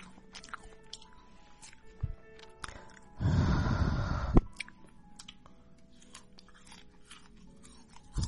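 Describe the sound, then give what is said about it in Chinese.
Someone bites into winter jujubes with one loud, crisp crunch lasting about a second. Scattered quieter chewing clicks and soft mouth noises come before and after it. “我才没有偷吃呢，我在吃冬枣啊，还没有偷吃啊，人家光明正大的吃好不好？”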